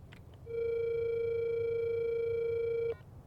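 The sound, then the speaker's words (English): A phone call rings out on speakerphone as one steady electronic tone. It holds an even pitch for about two and a half seconds, then cuts off abruptly against faint background hiss. “Grab my phone and call Bobby. Put it on speaker.”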